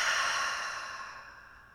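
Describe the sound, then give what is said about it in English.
A long, deep exhale through the mouth during a yoga breathing exercise, a soft breathy hiss that fades steadily over almost two seconds, with no talking. “Big breath in through the nose. Big exhale out through the mouth.”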